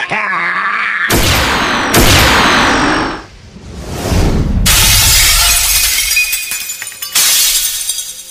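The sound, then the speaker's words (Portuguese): Crashing, glassy shatter of a magic shield destroyed by a fire blast in a role-playing game, a series of loud bright bursts with whooshing swishes and tinkling debris, the impacts rising and breaking off in turn. “bolinhas de chama voam, destrói o escudo, mas vocês estão intactos.”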